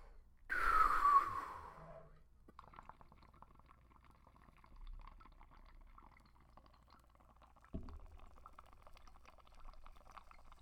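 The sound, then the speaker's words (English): Smoking a bowl through a bubbling water pipe: a louder breathy rush opens the hit, then a faint, steady gurgle runs for several seconds, with a brief soft knock near the end. “let's smoke this Oscar the Grouch looking bowl right here and go to another dimension.”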